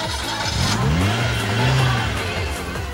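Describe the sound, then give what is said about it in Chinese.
A racing car engine revs hard at the finish line of a street race, a loud continuous roar whose pitch swells, dips and climbs again over three seconds, with no talk. “开始听到引擎声啦，佢哋就嚟到啦”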